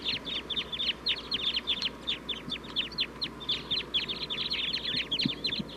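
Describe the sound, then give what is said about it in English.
A wild flock of birds calls from a tree, with dense, overlapping high chirps repeating rapidly and steadily throughout, over a low, constant background rumble. “Mainly pointed at the flock in the tree, calling.”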